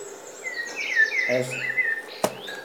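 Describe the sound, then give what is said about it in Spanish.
Birds sing near a waterfall: a run of high, sweeping chirps and warbled whistles, some overlapping, over a steady soft background hiss, with one sharp brief click near the end. “como estos pájaros que están aquí cantando, como esta cascada, no sé si se oye.”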